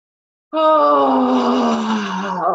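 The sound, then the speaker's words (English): A group exhales loudly together with a voiced, groan-like sound during a breathing exercise. It is one sustained, strong tone of about two seconds that sinks slightly in pitch as it eases off. “On the out, we're just going to exhale with a bit of sound and shake it out”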